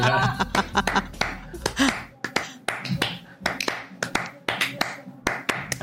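Bare hands drumming a Spanish-style rhythm, many sharp, dry slaps in quick syncopated bursts separated by brief pauses, loud and percussive.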